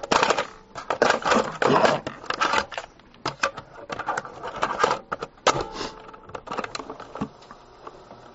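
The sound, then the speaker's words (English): A cassette tape being turned over gives off clattering plastic clicks and rattles in irregular bursts, busier at first and then sparser, with short quiet gaps between handling noises. “If you'll be patient, I'm going to turn the tape over here.”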